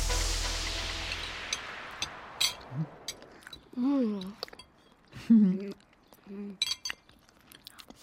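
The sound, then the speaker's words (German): People chewing lime cake: soft crunching and chewing with a few small clinks of cutlery or glass, and voices humming appreciatively between bites after a falling whoosh at the start. “Schön, dass es euch schmeckt. 3 Stücke schaffe ich noch. Oh. Wunderbar zitronig. Limettig. Die Limette macht den Unterschied.”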